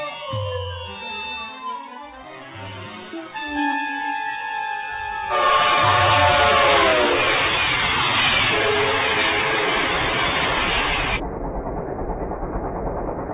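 A passenger train travelling north toward Beijing, with tonal, horn-like notes at first, then a loud, steady rushing clatter that runs on and eases slightly near the end.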